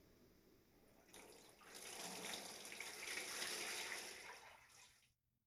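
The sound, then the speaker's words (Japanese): Hot water poured over a person's back as a bathing rinse, heard as a steady splashing gush that rises after a softer start, holds for about four seconds and then cuts off abruptly. “そこに座って、私がお背中をお流しします。まずは右から、”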